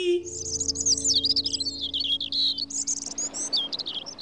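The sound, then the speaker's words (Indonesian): Colourful birds chirp as they fly: many quick, high, warbling tweets in a busy stream over a steady low tone. “Mereka juga berubah menjadi burung dengan bulu berwarna-warni. Lalu mereka pun terbang menari-nari.”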